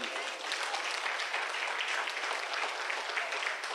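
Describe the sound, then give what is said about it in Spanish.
Church audience applauding during a sermon: steady, even applause of moderate loudness with dense overlapping claps and no breaks. “Denle un aplauso a Él que vive.”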